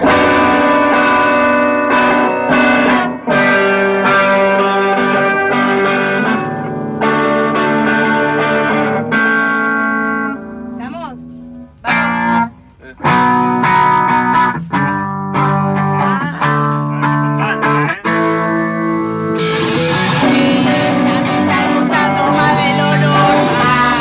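Electric guitar notes played slowly during a lesson, each held and ringing with a distorted, effect-laden tone that rings with echo and chorus, loud and sustained, with a few brief breaks between phrases.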